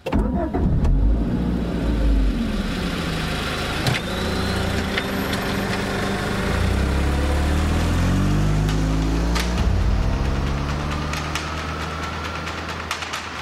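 A car engine runs with a loud, continuous low rumble as people get ready to drive off at night toward a gas station. Its pitch swells and dips a few times over the thirteen seconds.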